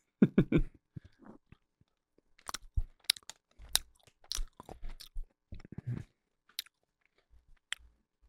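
Someone chews a candy-coated Mexican gummy bear with chamoy flavoring, making many irregular crunchy bites and squishy chews in uneven bursts separated by short pauses, with no talk.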